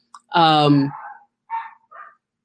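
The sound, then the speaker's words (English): A pet dog in a home gives one drawn-out, whining bark that falls in pitch, followed by two short, fainter yelps. “Sorry, my dogs are barking in the background.”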